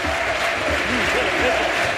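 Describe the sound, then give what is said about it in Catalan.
Crowd applause at a football match as a substituted player leaves the pitch, steady clapping heard under voices. “S'ha tret la vena que portava al genoll i doncs se'n va aplaudint.”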